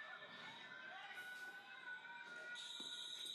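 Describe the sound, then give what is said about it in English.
An alarm going off in a scene from the horror film Insidious Chapter 2: steady, piercing electronic tones ring continuously, with voices reacting underneath. “Oh, it's the alarm. Yeah. He set off the alarm.”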